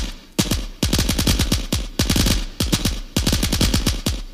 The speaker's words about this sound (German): Und tatsächlich, der Schuss streifte meinen großen Zeh. Es tat höllisch weh. Ich schoss zurück.